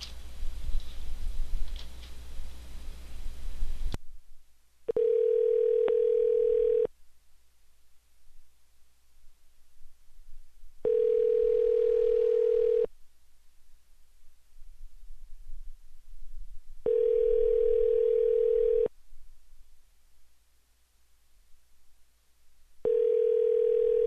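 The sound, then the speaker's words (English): Telephone tone while calling again: a hissy opening gives way to a steady, clear tone that sounds in long, evenly spaced beeps, four in all, the last cut short. “Okay, either rejected or shut off the phone, I would guess. Once more.”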